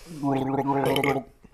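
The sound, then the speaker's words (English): Someone gargling milk, one short bubbling gurgle lasting just over a second, voiced and throaty. “Gargling milk.”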